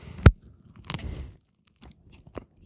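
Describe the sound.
Chewing of a lactic-acid-set cheese eaten with its rind, its texture between fresh and hard cheese: a sharp bite at the start, then a few softer, faint crunching chews with quiet gaps between them.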